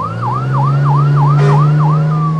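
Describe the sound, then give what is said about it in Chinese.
A police car siren wails loudly in rapid, repeating sweeps that cycle up and down in pitch, over a steady low engine hum. “警车马上开到了树林里”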